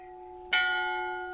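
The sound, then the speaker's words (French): A bell striking the hour: one clear, bright chime that rings on with a long, slowly fading decay over a steady low hum. “L'heure sonne.”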